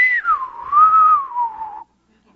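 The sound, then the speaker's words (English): A person whistling a tune, with one clear, pure note that slides down, then gently rises and falls for almost two seconds before stopping. No other sounds are heard. “And we just go on whistling”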